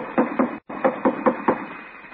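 Knocking on the stage door of an old theater off an alley: two hard raps, a brief silence, then a steady run of several more firm knocks on wood.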